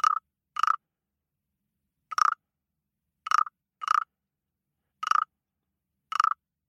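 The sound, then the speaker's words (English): A frog calls in short, sharp croaking bursts, about eight in all. They are spaced irregularly, with silence between them, and each is a brief, buzzy, mid-pitched rasp with bright overtones. “What sound do you think it is? That's the sound of a frog.”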